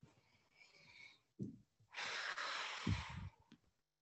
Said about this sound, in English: And I think that I just have to take a deep breath.